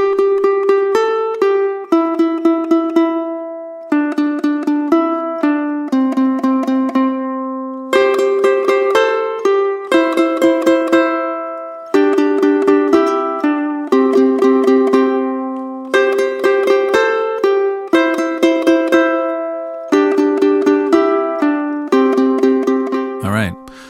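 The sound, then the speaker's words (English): Two ukulele parts pick out a bright pentatonic melody in harmony, plucked notes in a steady rhythm, played alone without backing in short phrases separated by brief pauses. “let's have a listen to the ukulele parts just on their own. Just on their own, without the backing track, they would sound like this.”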